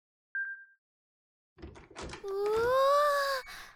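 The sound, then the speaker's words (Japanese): A key card reader beeps once to open a door, followed by a few clunks and a sustained tonal whir as the door opens. “開けてみてくれ。これもカードキーで開くんだろ。”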